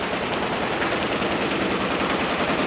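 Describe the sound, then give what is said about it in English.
Sustained gunfire during Israeli–Palestinian fighting, a thick, continuous crackle of shots merging into a loud, steady roar with no clear pauses. “Today, only the rockets and the guns will do the talking.”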